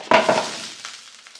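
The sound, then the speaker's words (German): Potato pancakes frying in a pan. A sharp burst of sizzling marks their entry into the hot oil, then settles into a softer crackling hiss with a few small pops. “das waren jetzt die Kartoffelpuffer, die ich in die Pfanne geworfen habe”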